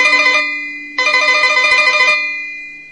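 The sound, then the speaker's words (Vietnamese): A telephone rings in an office in two bright, multi-tone electronic bursts: a short one, then a longer trill after a brief gap. The ring fades out with no voices. “Ông Trân vào phòng làm việc, vừa ngồi xuống ghế thì chuông điện thoại reo vang.”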